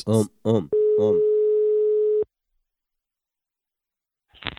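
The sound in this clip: A telephone busy signal: a single steady tone that lasts about a second and a half and then stops dead. A voice talks over its start, and near-silence follows.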